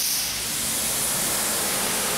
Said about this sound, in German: jetzt kommt hier die große Wasserdusche